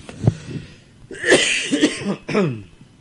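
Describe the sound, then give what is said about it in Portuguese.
Coughing during a spoken prayer: a few loud, throaty coughs with a rough, raspy edge, the longest in the middle, and no speech alongside. “Estamos para a tosse aí, irmãos”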